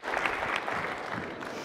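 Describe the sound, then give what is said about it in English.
A group gives a short burst of applause for a child. The dense clapping is strongest at first, then thins slightly as it continues. “Everybody give CJ a hand clap.”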